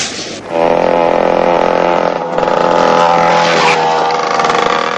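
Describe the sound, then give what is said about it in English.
A dirt bike engine roars as it speeds down a road. After a brief quieter start, a loud buzzing drone holds steady, wavering slightly in pitch. “Ricky speeds down the road on his dirt bike”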